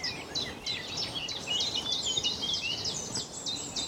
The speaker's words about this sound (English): Just the warbles of blackbirds, chiff-chaffs, blackcaps.